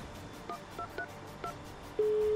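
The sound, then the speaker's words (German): A telephone number is dialed on a keypad: four short electronic touch-tone beeps at a steady pace, then a sustained steady tone begins and continues to the end. “Dann müssen wir jetzt bei Tasso und bei Findefix anrufen, oder?”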